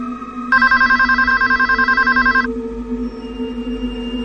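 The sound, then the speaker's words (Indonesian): A home telephone in the living room rings in one loud, trilling burst of rapid electronic pulses lasting about two seconds. It then stops, leaving a steady low hum. “telepon di rumahku berdering. Aku pun segera menuju telepon rumah yang ada di ruang tengah dekat Sally duduk.”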